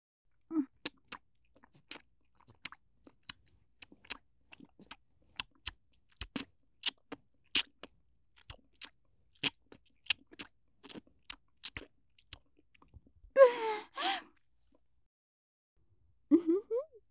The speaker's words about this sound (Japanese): ファーストキス、ごちそうさま。これからもっと濃厚なキスをしてあげる。